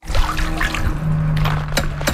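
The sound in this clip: Water sloshes and drips as a skimmer net is dipped into a backyard swimming pool whose bottom is black with ash, giving a few soft splashing, trickling sounds with no talking.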